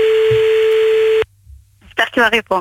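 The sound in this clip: A telephone ringing tone on an outgoing call holds one steady pitch for just over a second, then cuts off abruptly. After a brief quiet gap, people begin talking.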